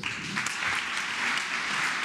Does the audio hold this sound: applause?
yes